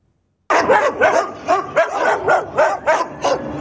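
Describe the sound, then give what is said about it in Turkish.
Stray dogs bark at an old man they are attacking on a street in Silopi, Şırnak, Turkey. After a moment of silence, a rapid, steady run of loud, sharp barks starts suddenly and continues to the end. “Köpekler yaşlı bir adama saldırdı.”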